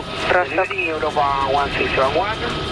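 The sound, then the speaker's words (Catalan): An airplane cockpit: steady engine drone runs under voices talking throughout. “Això és un avió, estem en el comandament d'un avió.”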